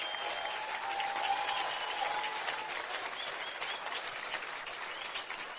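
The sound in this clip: Audience applause greets the speaker's wife as she stands at a morning event. The clapping is steady, dense and continuous from start to finish.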